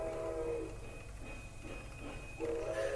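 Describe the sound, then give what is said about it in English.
A train slows and comes to a stop as it arrives at a station: a steady, loud rumble of wheels runs throughout, with high tonal squeals at the start and again near the end. “The train slows as it gets to Arkham and then comes to a stop.”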